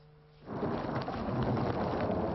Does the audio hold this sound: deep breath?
no